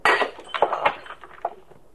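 A drinking glass is knocked from someone's hand and breaks: a bright, sharp crash opens, followed by a few scattered clinks and tinkling fragments that fade out.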